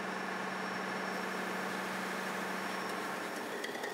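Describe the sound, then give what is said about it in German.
Steady drone of a tugboat's diesel engines running, a low continuous rumble with a constant hum and no breaks or surges, fairly faint throughout. “Die Dieselmotoren können starten.”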